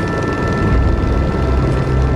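A helicopter flying over a flood-damaged river valley drones with a steady, loud rotor and engine roar that stays constant throughout, with no talking.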